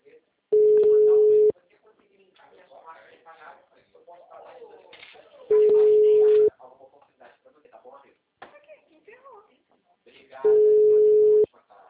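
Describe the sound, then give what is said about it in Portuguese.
A telephone ringback tone sounds on an outgoing call: three steady, mid-pitched tones about a second long each, evenly spaced several seconds apart, with faint talk and rustling between them. “Tô ligando pra Watson agora.”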